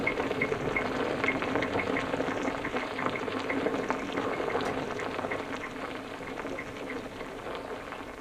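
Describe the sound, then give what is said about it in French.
Wine bubbling in a barrel makes a steady, dense fizz of small popping bubbles that runs evenly throughout at a moderate level. “Le vin qui bouille dans le tonneau.”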